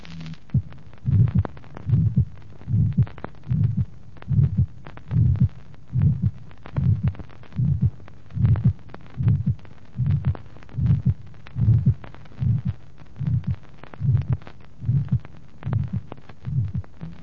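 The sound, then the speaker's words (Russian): A systolic heart murmur from subvalvular aortic stenosis, loudest at the apex and the fourth left intercostal space: many steady, regular heartbeats, each with a rough, low, whooshing throb, with no voices. “систолический шум значительно громче, чем при клапанном стенозе. Максимум шума выслушивается на верхушке и в четвертом межреберье слева. Второй тон обычно сохранен.”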